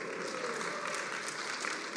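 An audience applauding for a child who holds up a windmill: dense, steady clapping continues through the whole clip.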